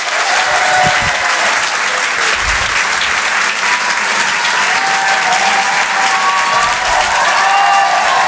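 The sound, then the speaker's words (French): Comedy club audience applauding a comedian: dense, continuous clapping from a large crowd, loud and sustained throughout with a steady wash of hand claps. “Je vous demande un maximum de bruit, s'il vous plaît, pour Yann Guillaume.”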